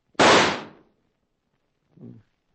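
A single loud gunshot from a blue-steel Winchester rifle, a sharp crack with a quickly fading tail, followed a moment later by a softer, low thud.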